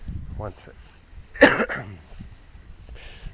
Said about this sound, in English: Still have a bit of a cough, but I'm almost over it.